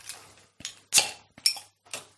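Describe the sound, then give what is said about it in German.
Glassy clinks and clatter as a glass bottle of malt beer is handled and opened, five short bright bursts spaced evenly over a low steady hum. “Jetzt trinke ich auch ein Malzbier. Ja, trink das Malzbier. Ja, du musst es mir ja aufmachen.”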